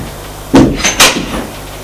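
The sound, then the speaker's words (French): An office door opening: two short, loud bursts of rattling and swishing in quick succession, over a steady low hum. “elle ouvre la porte”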